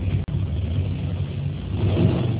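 Over a phone line, the muffled engine of a car entering a road gives a steady low rumble, with a brief dropout near the start and a slight swell toward the end.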